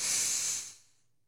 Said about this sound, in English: We need to breathe. It's a Friday. We've made it. 1, 2, 3, deep breath in.